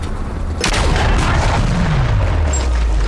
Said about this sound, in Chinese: 用大炮把它轰掉。